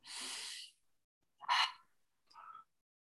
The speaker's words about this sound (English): Big breath in.